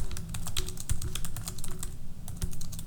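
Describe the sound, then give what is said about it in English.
Steady typing on an unfamiliar computer keyboard, many clicking keystrokes in an uneven, quick rhythm, with no voices. “this keyboard is different than my laptop”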